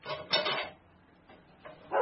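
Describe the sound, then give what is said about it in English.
A dog barking: a few short, fairly loud barks, clustered at the start and again near the end with a quiet gap between, and no talking. “Sally, stop barking.”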